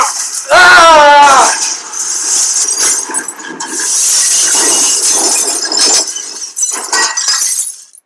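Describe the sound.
Car crash in a video game, a Hyundai Elantra being crushed: a loud burst of shattering glass and crunching impact under a brief voice, followed by a long hissing, rattling wash of debris.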